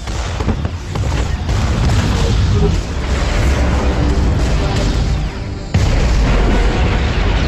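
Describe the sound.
Heavy weapons fire in a movie scene: deep booms and bursts in a dense, continuous barrage that stays loud throughout, with a sudden jump in intensity near the end.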